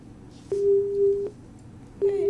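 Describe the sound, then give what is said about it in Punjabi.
Phone line tone after a dropped call: a steady, low electronic beep sounds once for under a second, then starts again near the end, over faint hiss. “ਸ਼ਾਇਦ ਉਹਨਾਂ ਦਾ ਕਾਲ ਕੱਟ ਗਿਆ।”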